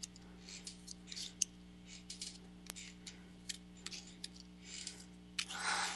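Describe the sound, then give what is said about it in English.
Tarot cards are laid out in a series of faint, irregular taps, ticks and soft slides over a steady low hum, ending in a brief soft swish. “Okay, time for our answer. Putting on the cards now.”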